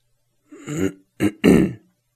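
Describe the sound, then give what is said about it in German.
Someone clears their throat deliberately in three rough, guttural bursts: a drawn-out rasp, a short sharp one, then a longer, louder final one. The sound stands alone, with silence around it. “So, das war mein Räuspern.”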